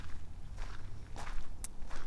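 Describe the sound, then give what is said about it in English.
Footsteps walk across a parking lot back toward a car, with several soft, evenly spaced steps over steady low background noise. “I am sort of vaguely walking back to my car. Backing back toward it.”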